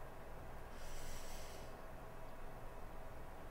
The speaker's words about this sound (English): So we're going to breathe in.